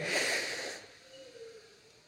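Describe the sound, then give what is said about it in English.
A deep human inhale during a group breathing cue: a brief, breathy rush of air lasting under a second, then tapering off into near quiet. “why don't we all, right now, together, take one big, collective, deep breath in. Ready? In.”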